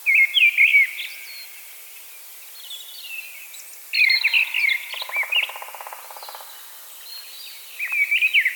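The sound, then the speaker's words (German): A mistle thrush sings in a forest, delivering loud, fluting phrases. The few short strophes are separated by quiet pauses, with a faint buzzing call in between. “Die Misteldrossel ist tatsächlich hier im Wald hinter der Landvolkshochschule Freckenhorst zu hören.”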